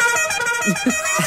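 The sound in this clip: Car horn sounding in one sustained, steady blast lasting over a second, with people talking over it.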